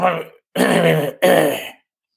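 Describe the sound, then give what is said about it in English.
Someone clears their throat to bring up phlegm: three rough, growling bursts, the second and third longer and closely spaced, followed by silence. “I'm trying to get some phlegm in my mouth so I can speak like him.”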